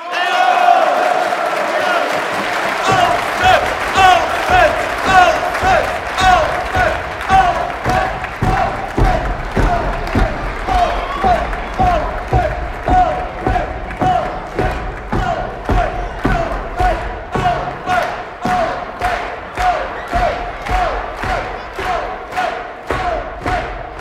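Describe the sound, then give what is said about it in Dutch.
Loud applause from a large audience after a speech, heard as rhythmic clapping in unison with steady beats that grow faster and denser toward the end, over sustained cheering voices throughout. “Alfred uitgesproken was, barstte er een enorm applaus los”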